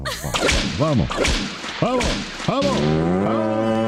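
An ox lows on a farm, a long, drawn-out moo near the end, preceded by several sharp whip-like swishes and cracks.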